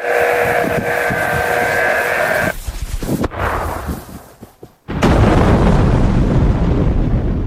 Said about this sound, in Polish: To rzekomo dźwięk armaty, która wystrzeliwuje pocisk z prędkością 7-krotnie przekraczającą prędkość dźwięku.